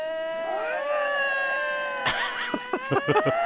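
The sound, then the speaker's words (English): Two lynx call to each other in mating season with long, wavering, harmonic yowls that bend up and down in pitch. Several sharper, harsher bursts of squalling follow in the second half. “It's the sound of two lynx, the wildcat. Is this lynx. Mating season?”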